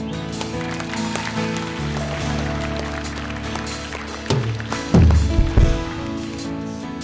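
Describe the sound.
Water splashing as a person steps into a baptism pool, with a few louder splashes bunched near the end over a steady background hum.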